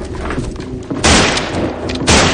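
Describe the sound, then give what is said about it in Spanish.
Gunshots in the 2007 western film 3:10 to Yuma: two loud, booming blasts in quick succession, each cutting sharply over a rumbling background. “Fuera, Potter está disparando.”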